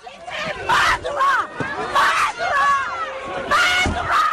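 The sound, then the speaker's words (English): Residents at the Grenfell Tower fire site in West London shout at the arriving prime minister in loud, repeated bursts of crowd yelling, with short gaps between the outbursts. “This is the sound of a prime minister being greeted by residents at the site of a national tragedy last week.”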